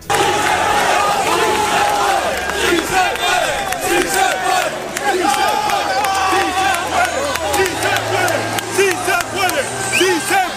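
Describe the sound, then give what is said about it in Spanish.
Loud, dense chanting from a large group of travelling football fans in Almería, joined by their team's players after a winning away match. Many voices shout and sing together in a steady, unbroken roar from start to finish. “Y al final del encuentro se acercaron los futbolistas y fíjense el sonido con los aficionados desplazados hasta Almería.”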